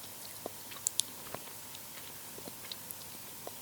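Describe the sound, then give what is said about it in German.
Faint chewing of edible meadow plant buds, soft crunches and small moist clicks arriving irregularly, sparse and quiet with no talk. “Ja, könnt ihr ruhig mal essen. Diese Knospen, die da gerade dran sind, die sind das Wiesenkaugummi.”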